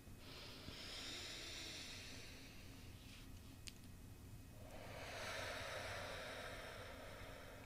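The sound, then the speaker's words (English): Deep breathing in through the nose and out through the mouth, heard as two long, soft, airy breaths separated by a quiet pause, with no speech. “Three deep breaths. In through your nose. Exhale through your mouth.”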